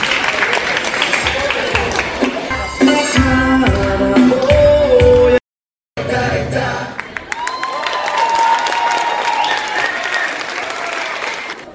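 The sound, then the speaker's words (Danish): Audience applause for a girls' performance: a full, steady clapping from a crowd that runs throughout, broken once by a brief silent gap before the clapping resumes. “Så værsgo, giv en hånd for pigerne.”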